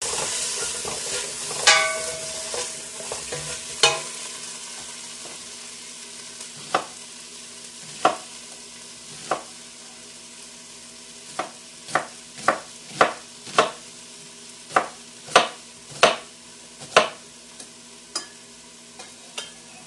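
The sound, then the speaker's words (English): Stirring venison in a sizzling pan: a steady frying hiss runs throughout while utensil scrapes and clacks come irregularly at first, then crowd into a quick run of many sharp strokes in the second half, with no talk. “So let me give that a stir around”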